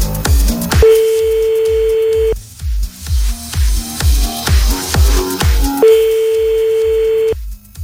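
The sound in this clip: Telephone ringback tone on an outgoing call, sounding twice as a steady mid-pitched tone of about a second and a half each time. It plays over loud rhythmic music with a thumping beat.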